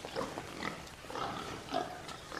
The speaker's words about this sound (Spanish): ¿De dónde salió ese chancho?